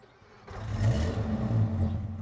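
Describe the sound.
A classic car with period leather interior and a worn brake system fires up: a short starter sound, then the engine catches about half a second in and settles into a loud, low, rough rumble that swells with revs to the end.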